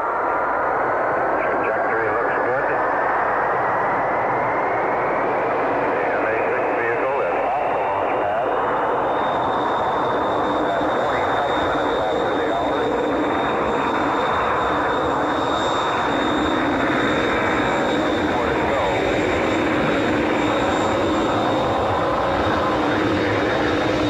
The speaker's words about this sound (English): ignition, liftoff. The MA-6 vehicle has lifted up. The MA-6 vehicle has lifted off.